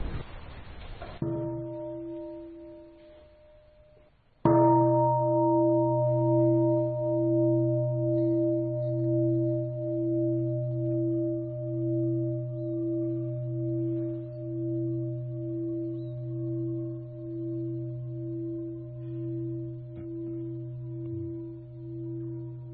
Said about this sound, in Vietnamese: là tôi thỉnh ba tiếng chuông. Các vị ngồi nghe chuông và tĩnh tâm mấy phút